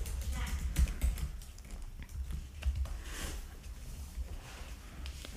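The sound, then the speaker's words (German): Soft, irregular tapping on a computer keyboard as a question is typed in. Many quiet clicks sit over a steady low background hiss. “Wir geben es gerade ein.”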